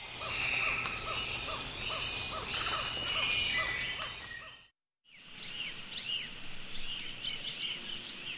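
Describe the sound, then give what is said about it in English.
Osa Peninsula rainforest soundscape in Costa Rica before and after logging: a dense, steady chorus of insects and bird calls, a brief silent break, then a second stretch with busy, fluttering high calls. “That's the sound of the Osa Peninsula in Costa Rica before and after logging in the late 1980s.”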